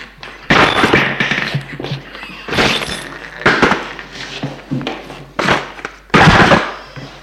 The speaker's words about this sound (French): d'un geste fait tomber les médicaments qui roulent à terre et dans le lavabo